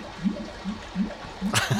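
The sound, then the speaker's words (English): A toilet tank refilling with water in a toilet with a clogged drain: low, rhythmic gurgling pulses that repeat at a steady pace, ending with a brighter, splashy burst of water. “That's filling up, the toilet filling up”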